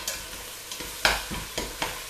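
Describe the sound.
Chopped onions are stirred in a frying pan while bigos is being cooked: several rhythmic scraping strokes of the spoon over a steady, soft sizzle, with no talk.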